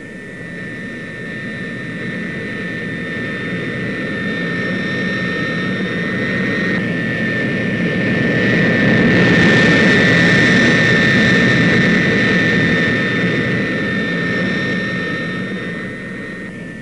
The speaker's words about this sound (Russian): Следом за носителем в воздух поднимается самолет-лаборатория.